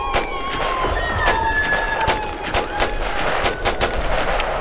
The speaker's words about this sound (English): cover fire. I'm on it.